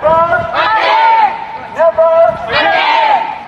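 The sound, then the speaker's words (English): Anti-mask protesters at the Indiana State House shout together in a steady, dense crowd roar, with raised voices swelling and dipping in uneven waves throughout. “What you're hearing here are people at the Indiana State House in the US protesting against the wearing of masks.”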